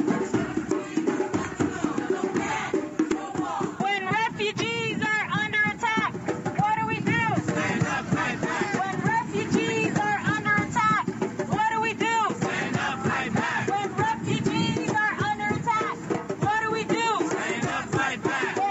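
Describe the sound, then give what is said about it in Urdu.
Protesters against the Trump travel ban chant slogans in unison outside a Trump building in downtown New York, loud rhythmic crowd voices repeating in steady bursts throughout. “مظاہرے میں صدر Trump کی سفری پابندی کے خلاف اور پناہ گزینوں کے حق میں نعرے لگائے گئے”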